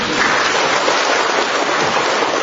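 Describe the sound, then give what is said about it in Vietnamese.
A church audience applauds during a Divine Mercy service, a dense, steady clapping that stays loud and even for the full few seconds, with no voices over it. “Vỗ tay to lên, mạnh dạn lên.”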